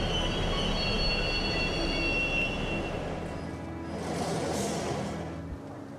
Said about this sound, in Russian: Поезд останавливается на станции.